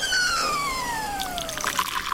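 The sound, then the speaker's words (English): Hot tea poured from a kettle into a cup: a steady liquid stream with a clear ringing tone that falls slowly in pitch, continuing unbroken for about two seconds. “Just pour it into the cup there. Okay, I am set. I've got my nice steaming hot cup of tea ready to go.”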